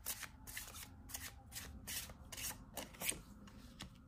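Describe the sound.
Tarot cards being shuffled and handled: many quick, papery swishes and riffles in an uneven rhythm, faint and close, with no talk over them.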